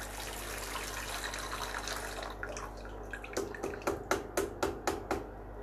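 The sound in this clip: Running tap water while washing the face and some utensils: a steady rush of flowing water, then a regular series of sharp splashes or knocks over the flow in the second half.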